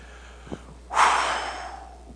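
A preacher breathes out forcefully into a microphone in a single loud, rushing burst of air that peaks quickly and then trails off over about half a second. A faint short breath comes just before it, and no one speaks.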